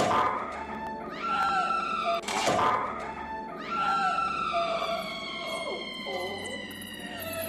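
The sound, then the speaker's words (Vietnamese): Cats yowl outside a house at night in long, wailing meows with gliding pitch and layered tones. A dull thump cuts in partway through, and the cries keep going until the end. “Đầu tiên là tiếng mèo kêu, tiếp đó là gió thổi cây lá xào xạc”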